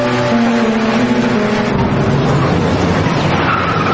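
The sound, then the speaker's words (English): A car engine as the vehicle drives, a continuous motor hum with a humming tone that drops in pitch partway through and then carries on as a rougher, steady drone. “Could you please just drive a little faster?”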